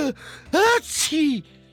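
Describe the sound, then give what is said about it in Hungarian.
A narrator's voice acts out a sneeze: a few breathy, pitched inhaling sounds build up, then a sharp, noisy burst is followed by a falling voiced note. “Haci! Tüsszögött nagyokat.”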